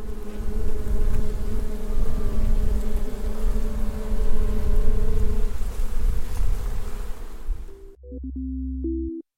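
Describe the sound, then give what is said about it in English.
A dense swarm of about 50,000 angry bees buzzes beside a giant almond orchard in central California, a loud continuous droning hum that cuts off abruptly near the end. “That is the sound of bees. 50,000 of them. And I am in a bee suit, swarmed by angry insects”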